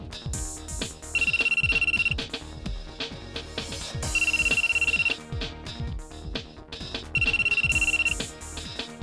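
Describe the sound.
An unanswered telephone rings in three evenly spaced bursts, each about a second long, bright and steady, over a continuous busy background with no pickup.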